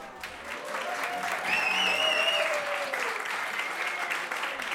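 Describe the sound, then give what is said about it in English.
A live studio audience applauds with dense, steady clapping that builds and holds, and a few whistles cut through the middle of the ovation. “Cue the live studio audience.”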